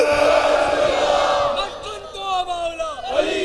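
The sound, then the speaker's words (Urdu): A crowd shouts the Nara-e-Haidari religious slogan in a loud, sustained chorus of voices in unison, with the pitch shifting and breaking toward the end. “اب کہہ دو نعرہ حیدری نعرہ رسال”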